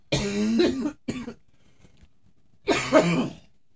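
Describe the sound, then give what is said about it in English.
Wet, mucus-laden coughing in a few loud bursts: two close together at the start, then a pause before a final harsh burst. “Ooh, that's a mucus. A little bit. I'm gonna have to take some Mucinex.”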